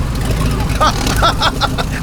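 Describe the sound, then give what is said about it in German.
A car engine roaring as the vehicle accelerates away, a loud, steady rumble running throughout with voices shouting over it. “Gib Gas! Ja, lass uns verschwinden. Okay, festhalten.”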